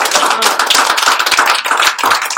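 Congregation applauding in a church: dense, loud, sustained clapping from many hands with no pauses.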